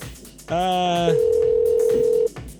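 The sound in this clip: A telephone dial tone sounds as a steady, unbroken hum at one fixed pitch and holds for just over a second before cutting off abruptly.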